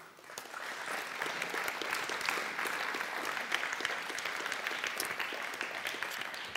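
An audience applauds to welcome two people onto a platform at a morning gathering. The clapping starts almost at once and stays full and steady to the end.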